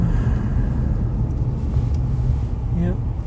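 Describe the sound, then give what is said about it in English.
A car drives at about 35 mph, producing a steady, heavy low rumble of engine and road noise. The drone holds level throughout, with a faint brief tonal sweep near the end. “So, exciting driving sounds.”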